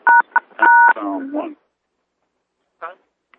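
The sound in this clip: Telephone keypad tones dialing pound and one during a conference call: a few short, clear dual-tone beeps in quick succession, then a brief voice and a faint later sound.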